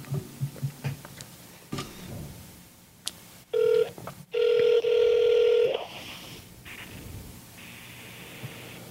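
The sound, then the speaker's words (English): Telephone dialing from a phone on speaker held close to the mic: a few short key beeps and clicks, then longer steady electronic tones over a constant hiss. “I'm going to be putting my phone on speaker and putting it close to the mic”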